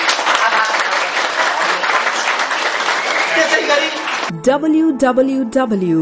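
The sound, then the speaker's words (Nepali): An audience applauds at a panel discussion event, thanking the facilitator with dense, even clapping for about four seconds before a voice begins speaking. “उहाँलाई तपाईँहरू सबैले ताली बजाएर”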